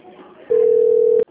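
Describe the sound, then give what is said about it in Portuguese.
Telephone tone after a dropped call: one loud, steady, mid-pitched beep holds for about three-quarters of a second and then cuts off abruptly. Quiet talking can be heard before and after it. “Alô? Alô? Seu Carmo está na linha? Sim. A ligação caiu. Eu acho que eu vou ter que refazer a ligação toda de novo.”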